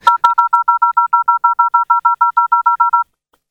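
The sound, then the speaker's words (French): Touch-tone keypad dialing of a phone number: a rapid, evenly spaced run of many short dual-pitched beeps at steady loudness, with no talk, ending abruptly. “Attendez, je compose le numéro.”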